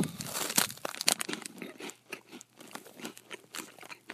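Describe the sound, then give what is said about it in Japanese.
Crunching of a corn-potage-flavored Umaibo corn puff snack being eaten, with the plastic wrapper crinkling: many loud, crisp bites and rustles come in quick, irregular bursts, then settle into softer chewing. “うまい棒ですね、食べてから、寝ようと思います。”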